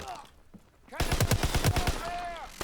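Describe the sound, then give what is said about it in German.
Heavy gunfire in a video game, a PC port: a rapid, loud stream of repeated shots bursts in after a quieter opening where a voice is faintly heard. “Steh unter schwerer Beschuss.”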